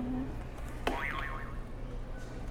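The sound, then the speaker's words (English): A buzzer being pressed gives a sharp click and then a brief wobbling, boing-like electronic tone that warbles for about half a second. It sounds faint over a low steady hum. “You want to hit the buzzer again?”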